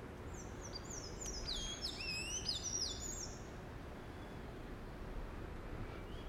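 A small tailless bird singing, a quick run of high, thin chirps and twitters in the first half, faint over a steady low wind-like hiss that continues alone afterward.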